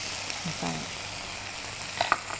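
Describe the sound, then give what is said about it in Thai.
Noodles being stir-fried with blanched straw mushrooms in a wok, seasoned with light soy sauce, oyster sauce and brown sugar: a quiet, steady sizzle broken by a few soft scrapes and clinks near the end. “เราผัดคลุกเคล้าให้ทั่วพอส่วนผสมเข้ากันกับเส้นดีแล้วนะคะ”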